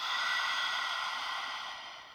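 A breath is drawn in through the open mouth during a breathing exercise. One soft, airy, steady inhale lasts about two seconds and tapers away at the end, with no talk.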